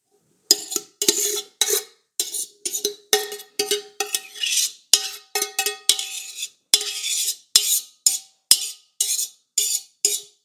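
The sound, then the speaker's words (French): A utensil clinks and scrapes against a baking dish as a mixture of apple and little gem lettuce is spooned in. Many short, bright taps fall in an irregular rhythm with quiet gaps between them. “Donc je vais verser dans un plat mon mélange pomme et sucrine.”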